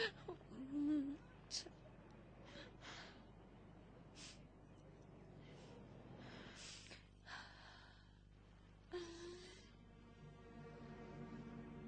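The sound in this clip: A girl cries softly, with faint sobbing gasps, sniffles and shaky breaths that come in uneven bursts over a low, quiet background.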